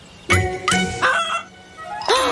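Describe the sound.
A voice imitates a chicken clucking with four loud, nasal, honking squawks, each bending in pitch, the last one after a short pause.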